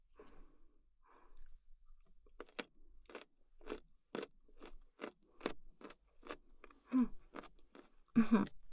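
Crunchy chewing of food at a meal, heard as many rhythmic bites and crunches in quick succession, quiet but clear, with soft breaths between them.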